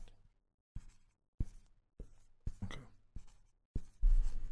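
A pen scratches across paper as a quiz answer is written by hand: a series of short, scratchy strokes separated by brief pauses, ending in a longer, denser scribble.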